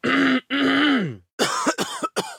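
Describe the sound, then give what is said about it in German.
A persistent cough: two drawn-out voiced, throat-clearing groans are followed by a few short, harsh cough bursts in quick succession. No words are spoken. “hustet Ihnen jetzt was. Es beginnt mit einem sehr hartnäckigen.”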